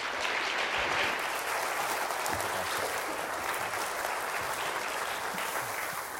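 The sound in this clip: Audience applause at an evening church gathering as a guest speaker is welcomed, a steady, even wash of many hands clapping that holds at a moderate level for the whole stretch without pause.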